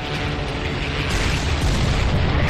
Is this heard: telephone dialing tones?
no